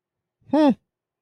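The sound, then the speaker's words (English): A single human yawn, a drawn-out voiced breath whose tone arches up and then back down, heard alone and lasting well under a second. “I'm yawning way too much today.”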